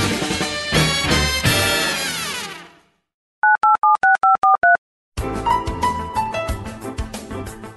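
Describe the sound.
Touch-tone telephone dialing: seven short, evenly spaced dual-pitched keypad beeps while a call is placed, in a silent gap between loud passages of music.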